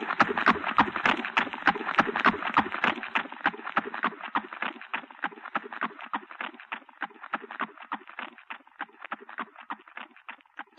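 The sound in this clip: Horses carrying horsemen beat out a rapid, regular clip-clop of many hoofbeats, loud at first and gradually fading as the pounding rhythm continues.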